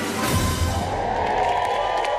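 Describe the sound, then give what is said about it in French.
A crowd cheers outside Buckingham Palace as Queen Elizabeth II appears on the balcony during her Platinum Jubilee celebrations. The roar of many voices is loud and sustained, holding at one level for the full few seconds. “explosion de joie de la foule lorsque la reine Elisabeth II est apparue au balcon de Buckingham Palace.”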